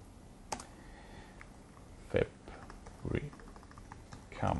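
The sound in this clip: Typing on a computer keyboard: a few sparse, crisp key clicks spaced irregularly over a faint, low background hiss.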